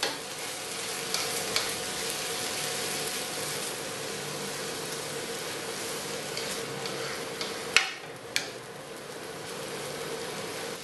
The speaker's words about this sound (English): You want to get all those flavors out of that caramelized onion and as well as the keema. You know, keep it from sticking together and forming lumps.